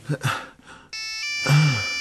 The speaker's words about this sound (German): Ach, das Handy. Das Handy.